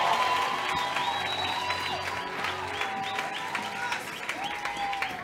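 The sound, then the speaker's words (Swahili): A church audience applauds during a service: steady, dense clapping from many people, strongest at the start and easing slightly toward the end. “Mpe Yesu makofi wewe ya utukufu.”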